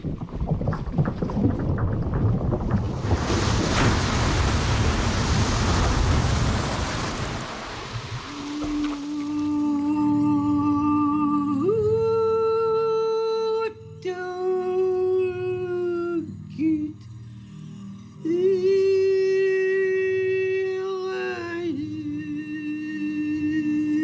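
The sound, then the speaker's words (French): An iceberg collapsing into the sea in the Arctic: a loud, broad roaring rush builds and holds for several seconds, then gives way to sustained, wavering howl-like tones. “Un iceberg qui s'effondre dans la mer, le son du dérèglement climatique dans le Grand Nord.”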